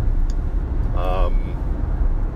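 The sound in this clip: A car driving on a road outside Des Moines, heard as a steady low rumble of road and engine noise that continues throughout.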